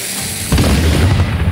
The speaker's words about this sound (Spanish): ¿Seguro que quiere disparar con eso? No confío en esos cañones de madera.